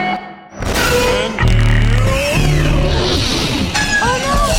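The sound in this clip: Pod racer engines rumble in their cockpits before the starting signal of a film race: a loud, steady low drone that thickens after a brief dip, with whining tones gliding up and down above it.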